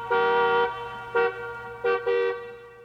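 A car horn honks loudly and clearly, giving one long blast followed by three short toots over a faint steady hum.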